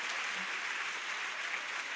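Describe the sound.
Church audience applauding a new convert: a soft but steady patter of many hands, unbroken from start to finish.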